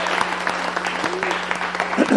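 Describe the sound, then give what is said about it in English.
An audience at a school gathering applauds a group of leaders. The clapping is steady and moderately loud, and voices rise briefly over it. “And I'd love you to give them a round of applause.”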